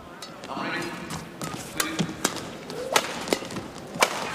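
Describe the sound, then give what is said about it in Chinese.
Sharp clicks of a table tennis ball struck on a serve and return during a match: a few quick, irregularly spaced taps over a low murmur of voices. “现在是刘胜书发球，蒂娜接发球。”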